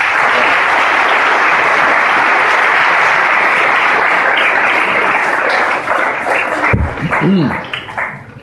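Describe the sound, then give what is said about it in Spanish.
Sustained applause from an audience at a lecture on a priest's life and work, a dense, steady clatter of clapping that holds strong, then thins and fades out near the end. “Demos un fuerte aplauso a los demás.”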